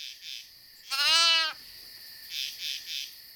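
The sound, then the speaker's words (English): A lost lamb bleats once, a loud, quavering, nasal cry lasting about half a second, against a faint, steady night chorus of high chirping that pulses softly before and after. “What was that? It's my lamb. It was the bleating of the lost lamb.”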